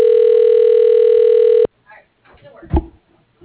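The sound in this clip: A telephone ringing tone on a call sounds as one steady, buzzing tone held for over a second and a half. It cuts off abruptly, and voices talking follow.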